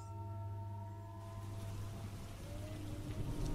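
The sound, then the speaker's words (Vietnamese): Heavy rain starts to fall during a thunderstorm, a dense hiss that builds after the first second and continues steadily over sustained soft tones. “Kèm theo đó là mưa bắt đầu rơi, lộp bộp, lộp bộp.”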